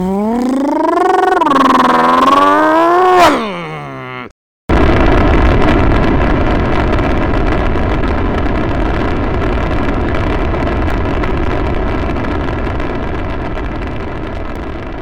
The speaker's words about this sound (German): Und er schießt die Rakete durch die Wolken. Durch den Himmel, in das Weltall hinein